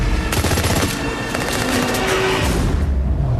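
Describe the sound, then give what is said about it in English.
Gunfire sound effects from a film trailer: loud, rapid automatic-weapon bursts packed densely into a continuous barrage that barely lets up, with no talking over it. “You think they stole those sound effects from Call of Duty? Because it sounded exactly like Call of Duty's guns.”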